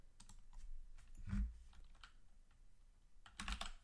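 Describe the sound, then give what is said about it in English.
Keys click on a computer keyboard as a football score is typed in, a few quiet, irregular taps with gaps between them, heard alone. “I got to type in the score”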